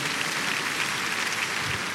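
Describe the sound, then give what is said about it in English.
Congregation clapping in church during a thanksgiving and dedication service: a steady, dense patter of many hands, even in loudness throughout with no distinct single claps and no clear voices. “Give the Lord a mighty clap offering again.”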